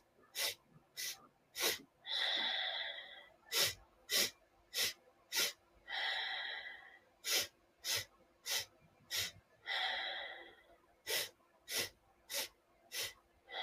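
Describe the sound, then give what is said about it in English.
Rhythmic breathing in a Kundalini yoga exercise: four short, sharp nasal inhale strokes, then one longer exhale. The cycle repeats about four times in a steady, faint pattern without talk. “you inhale in four strokes through the nose, exhale one”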